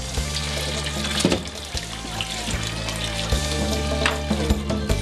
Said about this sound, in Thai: เริ่มต้นจัดการล้างทำความสะอาดผักทุกอย่างก่อนจะปอกเปลือกเตรียมไว้